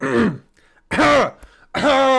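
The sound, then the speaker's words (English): A person clearing their throat in three loud, rough, voiced bursts, the middle one longest, separated by short near-silent pauses. “Clear the throat.”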